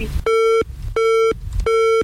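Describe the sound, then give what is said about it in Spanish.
A telephone busy tone after a dropped call: three loud, steady mid-pitched beeps in an even on-off rhythm, with faint background noise filling the gaps between pulses. “Se cortó la llamada acá con Iván Rivera.”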